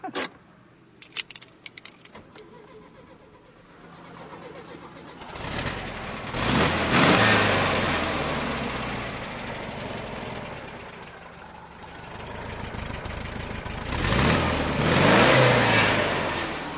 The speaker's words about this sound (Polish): A dźwięk silnika, jest szansa usłyszeć? Brzmi tak samo jak Garbus.